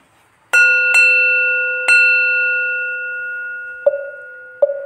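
Metallic bell strikes: three bright, ringing hits with long shimmering sustain, then two softer, lower-pitched dings near the end, each tone fading slowly.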